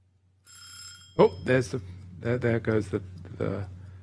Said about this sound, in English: there goes the alarm